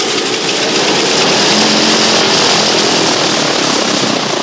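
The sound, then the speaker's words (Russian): Propeller airplane engines running, a loud, steady, dense roar with a continuous drone that holds at full volume throughout, with no audible slowing or stopping. “Летчик выключает двигатели. Пропеллеры останавливаются.”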